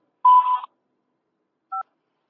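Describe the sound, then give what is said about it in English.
Telephone keypad tones sound as 5 is dialed to accept a call from a prison: a longer tone burst, then after a silent pause a short, clean dual-tone beep. “To accept this call, say or dial 5 now.”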